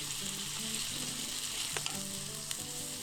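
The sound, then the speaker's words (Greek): Steady sizzling as skoufichta pasta fries and is stirred in a pan: a continuous crackling hiss with soft scraping, broken by a couple of sharper ticks near the end. “πάμε και τα σκουφιχτά, ανακατεύουμε για 1-2 λεπτά”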